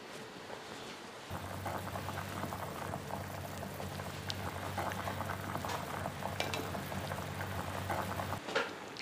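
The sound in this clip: Water at a rolling boil as shrimp and fish are blanched: a steady, faint bubbling and popping that starts, runs evenly for several seconds, then stops, with no voices.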